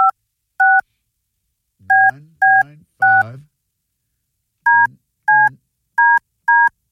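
Telephone keypad dialing tones: nine short, clear two-note beeps in an irregular rhythm with gaps between groups, some overlapped by a low murmuring sound.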